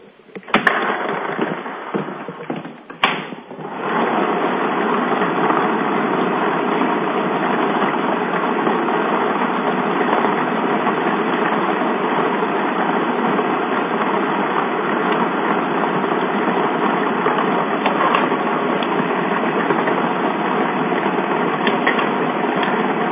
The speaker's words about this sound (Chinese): 好的，马上为您启动摇奖机。